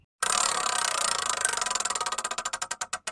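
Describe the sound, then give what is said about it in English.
A prize wheel spins during a game, giving off rapid, loud clicking ticks that gradually slow and spread apart until they become separate, distinct clicks at the end. “Spinning the wheel now.”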